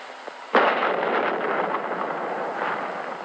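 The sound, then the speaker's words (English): A dynamite blast set off by a demolition team to clear ridges hits with a sudden loud boom, then trails off in a long rumbling roar of falling debris; no talk. “The call goes out for dynamite crews, Navy's trained demolition teams, seasoned on enemy beaches. They must blast the 50-foot ridges, clear the way to meet the expedition timetable.”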